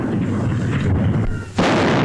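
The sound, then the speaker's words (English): A loud boom from an artillery gun salute fired by the Honourable Artillery Company at the Tower, one sudden blast breaking through a steady rumbling noise and ringing on afterward. “At the tower, the salute is fired by the Honourable Artillery Company.”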